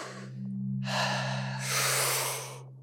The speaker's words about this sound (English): it starts with some deep breaths, probably about 30 really deep breaths. So it's a deep inhale and a lighter exhalation.